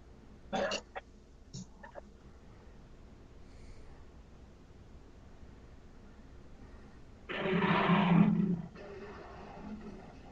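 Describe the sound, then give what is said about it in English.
Rough growling from an animatronic wolf in a film scene: a few short, raspy bursts near the start, then a louder, sustained growl toward the end over a faint background. “Got such a good animatronic wolf there, too.”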